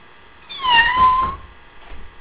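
A small female kitten meows once, a drawn-out, faint cry whose pitch dips and then holds, followed by soft rustling.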